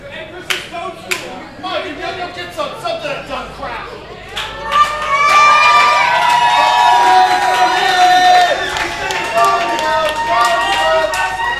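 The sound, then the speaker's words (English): Crowd at a live wrestling match clapping and cheering, scattered bursts at first, then swelling into sustained, voiced chanting that holds loud before easing back toward more broken clapping. “Crowd's chanting about they already got hot dogs.”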